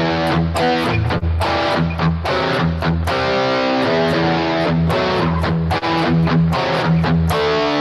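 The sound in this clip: Loud distorted electric guitar chords strummed in a choppy rhythmic pattern, many short attacks moving through shifting major, minor and tense in-between harmonies, continuous and alone without voices.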